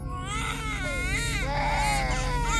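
Babies wail as they wake in sleep capsules, their overlapping high, wavering cries rising and falling in pitch. The crying is loud and continuous over a steady low mechanical hum.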